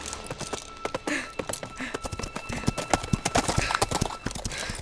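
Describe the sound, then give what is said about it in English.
An old mare's hooves clip-clop along a Manhattan street in a steady walking rhythm. Many crisp hoof strikes land evenly throughout at a moderate level. “As I rode the old mare down the streets of Manhattan”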